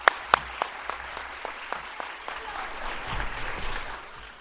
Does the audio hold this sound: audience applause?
yes

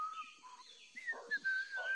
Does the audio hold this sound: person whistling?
yes

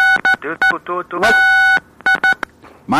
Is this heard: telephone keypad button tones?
yes

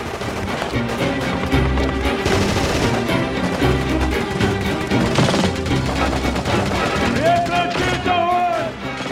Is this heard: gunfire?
yes

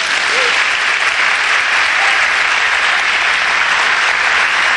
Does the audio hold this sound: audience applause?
yes

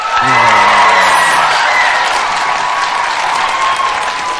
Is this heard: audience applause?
yes

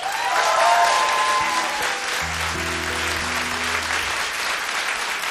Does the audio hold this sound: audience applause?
yes

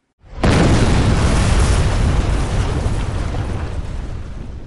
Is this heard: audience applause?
no

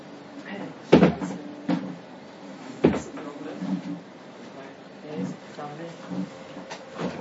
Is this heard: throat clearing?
no

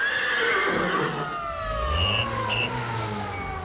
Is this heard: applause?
no

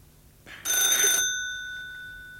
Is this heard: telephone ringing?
yes

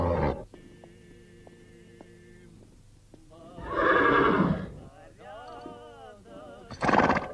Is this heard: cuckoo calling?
no

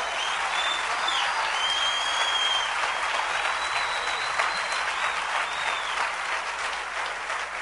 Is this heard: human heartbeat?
no

